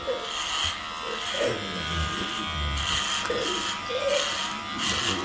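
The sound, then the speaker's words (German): An electric razor buzzes steadily while shaving a patient's head. The drone pulses and swells in intensity several times over the few seconds, with a rough, low scraping beneath it. “Private Barker beginnt damit, dem Patienten den Kopf zu rasieren.”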